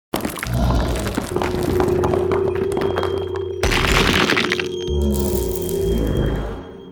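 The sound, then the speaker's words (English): A gunshot sound effect opens with a sudden loud crack, then a sustained, dense roar with a steady ringing tone, broken midway by a second abrupt burst before trailing off slightly at the end. “I've got to say, Mr. White, I thought you'd be a better shot.”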